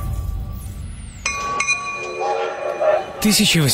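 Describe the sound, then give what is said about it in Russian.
Railway station scene at Mount Clemens near Detroit in 1862, with a train: sharp glassy clinks and sustained whistle-like tones over a steady rumbling bed, growing louder toward the end. “1862 год. Америка. Железнодорожная станция Маунт-Клеменс, недалеко от Детройта.”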